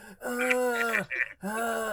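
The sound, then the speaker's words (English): A voice imitating someone's loud heavy breathing: two long, drawn-out groaning breaths, the first sliding downward in pitch at its end, separated by a brief pause. “he'll just be breathing. He'll be like,”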